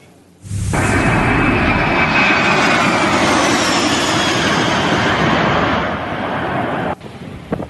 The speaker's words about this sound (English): This bomber dropping fire retardant on the wildfire burning in Ashcroft just south of Boston Flats.